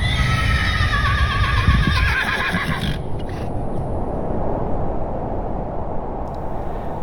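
Horses neigh amid horse-drawn carriages on a cold winter street. A loud, wavering whinny fills the first three seconds, then a steady, rough rumble of carriage traffic carries on alone.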